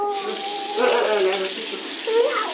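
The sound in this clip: Water runs steadily from a tap at a sink as a child washes hands, a continuous hiss that swells briefly near the middle and again toward the end, with voices heard faintly over it.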